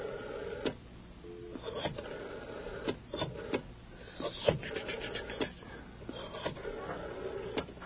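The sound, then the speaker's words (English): A telephone being dialed, heard as a faint run of many quick clicks mixed with short tones, narrow and thin in quality, with no voices. “Well, let's not dial it as fast and see if we can get through this time.”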